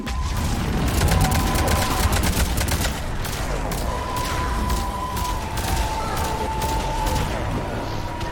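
Rapid gunfire in a video game, dense overlapping shots rattling continuously throughout, loud and without pause, with a thin steady tonal whine running beneath the bursts.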